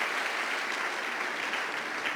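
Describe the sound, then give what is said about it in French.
Applause and cheering from a church audience acclaiming Jesus during a French-language sermon: dense, steady clapping and crowd noise that holds at an even level throughout, with no speech over it. “On acclame Jésus.”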